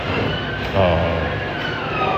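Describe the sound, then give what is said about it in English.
A motorbike engine drones past in a steady, broad rumble with a brief swell in loudness near the start, then holds on evenly. “Shut up, motorbike. We might do a retake later because of motorbikes and music and stuff.”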